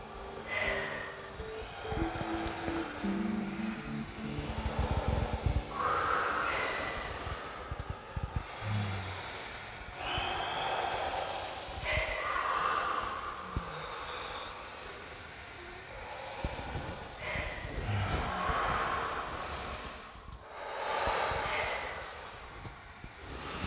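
Slow, deep breaths during a guided breathing exercise, airy and hissing, rising and fading in a steady rhythm of swells every few seconds, faint throughout.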